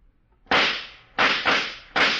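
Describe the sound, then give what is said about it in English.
Gunshots are fired at the characters in a radio drama: four loud, sharp cracks, each ending in a short hissing decay, the last three following close together. “I'm all right, Mike, but whoever fired at us is getting away.”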